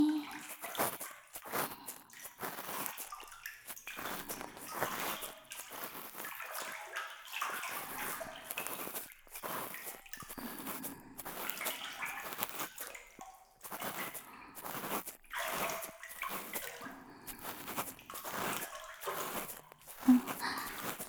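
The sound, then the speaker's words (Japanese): Warm water poured over someone in a bath: continuous soft sloshing and splashing in uneven bursts, with trickles and a few drips, at a low level throughout. “冷えてきましたか？お湯、かけてあげますね。”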